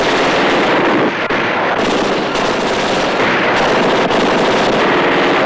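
Machine guns firing through windows during a shootout with police: dense, loud, rapid gunfire running continuously for several seconds, with no talk over it.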